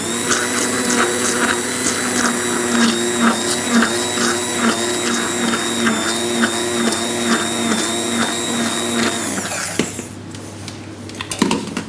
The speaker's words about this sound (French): Alors, on va mixer un peu le coulis de cresson. On va le faire mousser sur le dessus.